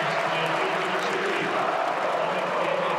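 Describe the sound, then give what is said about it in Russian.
Stadium spectators applaud a Dynamo football player being substituted off the pitch, a dense, steady roar of crowd noise and clapping that holds at an even level throughout without distinct individual claps. “13 номер Федор Черных с поля уходит. Зрители ему аплодируют.”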